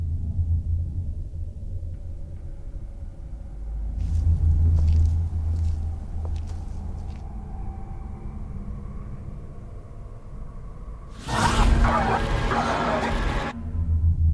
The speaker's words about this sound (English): we're gonna go ahead and play a trailer for Hellhouse LLC from 2015. Then we'll be right back to talk about it.